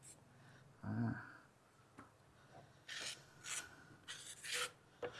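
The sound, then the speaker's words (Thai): A steel ruler scrapes across setting cement to smooth it level in a mold, giving a few short, faint rasping strokes at irregular intervals with quiet gaps between them. “ครูจะใช้ไม้บรรทัดนะครับไม้บรรทัดนะครับเป็นฟุตเหล็กนะครับปาดนะครับปาดให้ตัวชิ้นงานนะครับมีความเรียบนะครับ”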